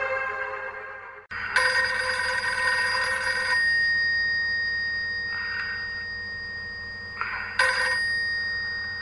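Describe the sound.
Telephone ringing: bright, warbling electronic ring bursts over a steady high tone, with a long ring near the start and a shorter one near the end, and fainter blips between them.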